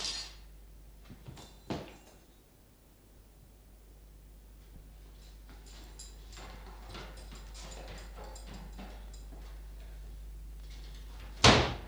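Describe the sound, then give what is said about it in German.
Doors being forced open in a historical radio drama: a heavy thud early on, scattered knocks and rattling mechanism noises, then a sudden loud crash at the very end, with no talk. “Sprengt die Türen.”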